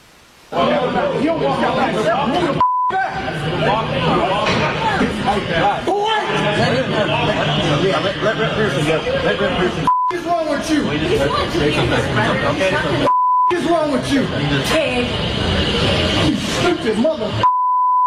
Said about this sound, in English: We're going to have to bleep out what he said to this fine law enforcement officer, but I think we have the sound here